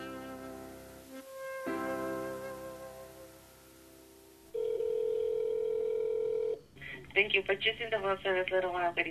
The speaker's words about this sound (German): Er ruft tatsächlich in der Liebestunnelkapelle in Las Vegas an.